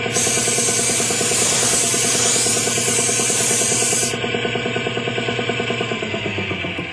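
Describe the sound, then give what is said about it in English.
Hiss of a paint sprayer laying down a coat of paint rides over a rhythmic, pulsing mechanical drone. The spray hiss cuts off about two thirds of the way through while the pulsing hum carries on. “Give it another shot of paint over here”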